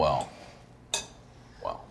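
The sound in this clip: Hummus being mixed in a bowl: three separate clinks and scrapes of a utensil against the dish, spaced apart with quiet between them.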